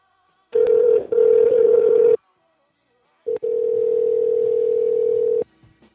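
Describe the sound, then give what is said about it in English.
A telephone dial tone sounds after a call has been disconnected. The steady, low buzzing tone comes in two long stretches with a gap of silence between them; the first stretch is briefly interrupted, and a faint click follows at the end. “Hey, buddy, the phone did that thing again where we got disconnected. Yeah, we got disconnected.”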